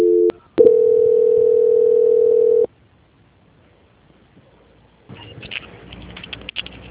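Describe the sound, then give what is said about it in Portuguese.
A telephone call-transfer tone: a brief tone and a short gap, then a steady mid-pitched tone held for about two seconds. It cuts off into quiet line hiss, followed later by faint clicking and crackling on the line. “Peço que, por favor, permaneça em linha por uns instantes. Transferência.”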